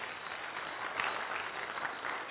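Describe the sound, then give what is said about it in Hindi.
Audience applause for a woman who answered during a talk: steady, dense clapping from a crowd, even in level across the whole short stretch with no voices over it. “देखिए बहन जी के लिए ताली, एक बार ताली बजा दीजिए।”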